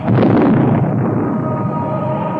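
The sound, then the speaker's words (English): A loud burst as a sledgehammer smashes a projection screen showing Big Brother's face in Apple's 1984 Macintosh advert, a booming explosive crash that then lingers as a long, roaring wash slowly thinning out. “She hurls a hammer towards the screen, which is projecting Big Brother's face, and the screen is destroyed, leaving the audience in shock.”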